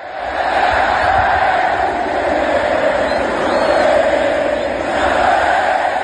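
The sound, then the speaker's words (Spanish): A dense crowd of football fans roars at and around the Monumental stadium before Argentina's match against Benin, Messi's farewell game. The noise is a loud, steady, unbroken crowd roar with a low rumble beneath it. “Y esto es sonido ahora mismo del Monumental y de los aledaños del estadio donde se juega ese Argentina-Benín.”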